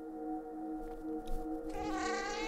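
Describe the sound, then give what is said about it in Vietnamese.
A cat meows mournfully in a hoarse, drawn-out wail: one long sustained cry with steady tone that turns brighter and harsher toward the end. “Lại có tiếng mèo kêu ai oán lọt vào trong đầu Phong”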